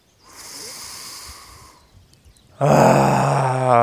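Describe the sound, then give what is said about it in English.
A deep, steady breath is drawn in through the nose during a guided meditation. It is a soft, airy hiss lasting about a second and a half. After a short pause, a loud voiced sound follows. “Let's take a deep breath into the nose.”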